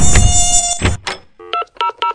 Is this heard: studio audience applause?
no